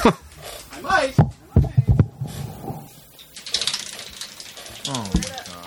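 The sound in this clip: A prize wheel spun on stage gives off a quick run of ratcheting clicks, with people talking and reacting around it.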